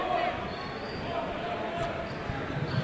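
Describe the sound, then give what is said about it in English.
Basketball dribbling on a court during a game, the ball bouncing steadily under constant crowd noise. “they're just dribbling out near the timeline right now.”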